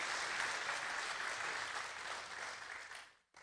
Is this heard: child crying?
no